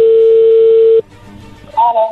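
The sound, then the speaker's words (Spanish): A steady telephone ringing tone holds for about a second as a call is dialed, then cuts off to faint line noise before a voice briefly starts at the end. “Ahí se está marcando, vamos a ver qué pasa”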